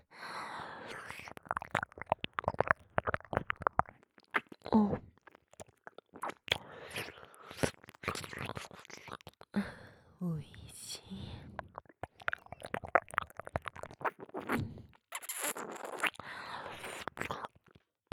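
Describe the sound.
ASMR tongue licking and massage of the whole ear makes many soft, wet, irregular clicks, smacks and squishes, broken by brief pauses and mixed with quiet whispering.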